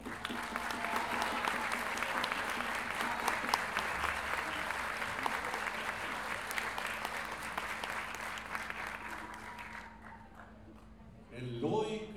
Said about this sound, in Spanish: Quiero que recibamos con un gran aplauso